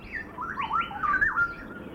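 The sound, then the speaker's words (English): Southeast Asian birds in a zoo aviary's tropical habitat give territorial dawn calls: overlapping squawks and sweeping, chirping whistles rise and fall over a steady wash of background noise, several birds calling at once. “What we're experiencing as the dawn progresses is the territorial call, it's a wake-up call, and the forest is becoming alive with the vocalizations, with the songs, with the singing.”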